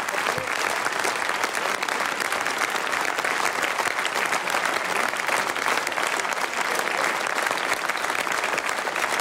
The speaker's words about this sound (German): Warum klatschen die jetzt alle?